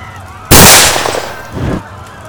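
A gunshot fired at someone in a Western-style drama: one sudden, loud crack that decays into a rumbling tail, with a softer burst of noise following shortly after.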